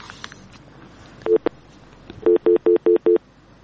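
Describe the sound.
Telephone ring tones as a caller's line connects: a pair of short tones, then six evenly spaced, identical mid-pitched beeps in a steady rhythm, with no talking over them.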